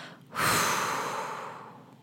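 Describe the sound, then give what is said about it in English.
A slow exhale through the mouth, as in a paced breathing exercise: a single long breathy whoosh that starts abruptly, peaks early, then fades gradually over about two seconds, with no talk. “you slowly exhale through your mouth for a count of eight, making a whooshing sound”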